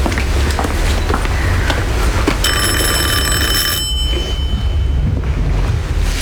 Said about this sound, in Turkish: kapı mı çaldı gülüm? Bilmiyorum ki, galiba.